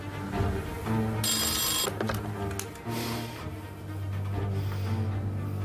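A telephone rings in one short, bright, buzzing burst, then stops. A steady low hum runs underneath and no one speaks.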